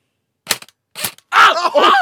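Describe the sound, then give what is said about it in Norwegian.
MP5 submachine gun fire: two short, sharp cracks about half a second apart, followed by a loud, drawn-out vocal cry. “Men ikke skyt over hoften. Vi skyter altså med en MP5, ja. Er du klar?”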